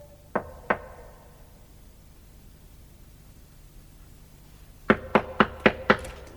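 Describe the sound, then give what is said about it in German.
Knocking on an old door whose bell button is stuck: two knocks, a long pause, then five quicker, evenly spaced knocks, sharp and fairly loud over a faint hiss. “Der Klingelknopf sah aus wie das Auge eines ausgestopften Fisches. Er klemmte. Also klopfte ich.”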